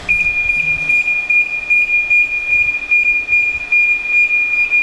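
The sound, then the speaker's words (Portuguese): An alarm signal sounds as a 22-ton, two-metre-thick concrete bunker door begins moving on rails: a continuous, steady high-pitched tone holds unbroken over a low, pulsing rumble. “É com este sinal de alarme que se tem acesso ao coração do ICNAS, uma porta imensa que demora mais de um minuto a abrir. São 22 toneladas, ela anda em carris como se fosse um comboio.”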